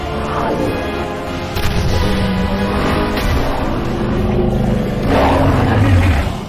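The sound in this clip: A racing car engine roars during a race, a sustained, loud, gritty drone that swells slightly in the middle and again near the end.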